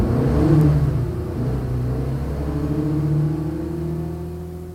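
A car pulls away, its engine giving a steady low hum and whir that swells slightly as it revs, then eases off and fades a little toward the end. No voices are heard.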